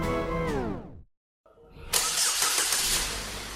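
A car engine's harmonic drone falls away into a brief silence, then the engine cranks and catches, bursting into a loud, rough revving roar that holds steady to the end.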